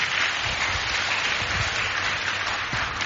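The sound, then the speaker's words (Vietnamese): Audience applause at a children's family retreat: a dense, continuous wash of many hands clapping, fairly loud and even from start to end, with no talk over it. “Quá tuyệt vời, cho một tràng pháo tay nữa nhé.”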